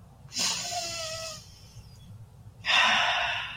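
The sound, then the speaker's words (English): A slow, deep breath drawn in and then let out, as in a calming exercise: a long, airy inhale, a pause, then a breathy exhale of similar length, with no talk. “Take a deep breath in”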